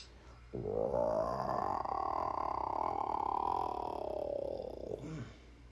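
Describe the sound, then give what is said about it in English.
A hungry stomach rumbling loudly in one long, low, gurgling growl that holds for about five seconds, alone, then stops. “and that sound was her tummy rumbling.”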